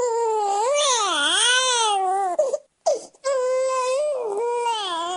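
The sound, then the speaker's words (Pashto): A two-day-old newborn cries outside a private hospital in Douala, Cameroon, in loud, continuous wails whose pitch wavers up and down, broken by a brief gasping pause midway before the crying resumes. “دو ورځانه ماشوم جاړي په داسې حال کې چې مور د کیمرون په اقتصادي پیتخت دواله کې د یو خصوصي روغتون نه بهر څارنه کوي”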